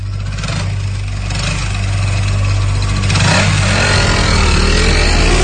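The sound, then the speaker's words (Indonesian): A motorcycle engine runs loudly with a steady low drone, growing louder and revving up partway through, then holding a rough, strong running sound. “Aku mulai menaiki motor Abai.”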